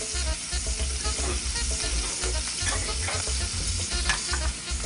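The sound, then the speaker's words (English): Shrimp sizzle as they fry in a skillet, a steady, dense crackle that holds at a constant level throughout, with no talking. “So we're going to cook our shrimp about halfway and then we're going to build our sauce from that.”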